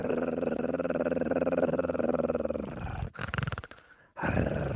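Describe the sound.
A voice imitating an unfriendly dog's growl: a low, rough, sustained snarl for about three seconds, followed by shorter growling bursts separated by brief breaks.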